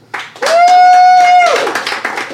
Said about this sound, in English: I'd like you to applaud now.